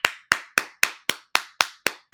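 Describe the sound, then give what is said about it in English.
One person claps their hands nine times in a quick, even rhythm, each clap a sharp, bright smack that decays fast, with no voices. “I gave myself a clap. I gave myself a clap because if you don't clap for yourself, ain't nobody gonna do it for you.”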